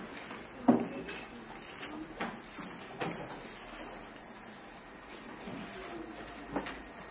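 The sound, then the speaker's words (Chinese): Bibles being opened to Matthew chapter six give a few soft thumps and rustles. The handling sounds are scattered sparsely over a quiet background. “好，我们打开圣经，马太福音第六章。”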